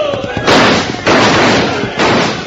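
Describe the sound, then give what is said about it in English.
Rifles fire in three loud, sharp blasts, each a broad burst of noise with a short rumbling tail, spaced unevenly with the last one after a longer gap. “Shoot pretty well when they have good rifles. Fire!”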